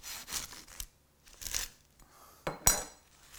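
Knife cutting through oven-baked pastrami egg rolls, a few crisp crunches and scrapes with light clinks of cutlery, quiet, separated by short pauses.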